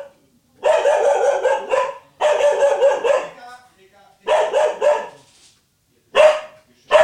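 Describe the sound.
A dog barks and vocalises in four drawn-out, loud harmonic bursts separated by short pauses, with another burst beginning right at the end.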